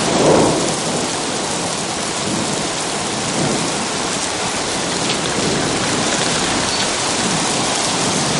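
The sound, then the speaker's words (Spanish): Heavy rain pours steadily as the downpour intensifies, a dense, unbroken hiss with low thunder rumbling beneath it throughout. “La lluvia arrecia inundando la huella.”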